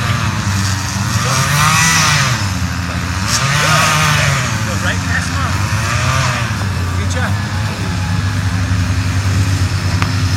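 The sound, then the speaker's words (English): A weed whacker drones steadily in the background through the whole clip while people talk over it outdoors, during a child's first bike ride one summer. “You'll get to hear the weed whacker in the background as well.”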